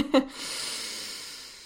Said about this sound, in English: So, I feel like I need a breath.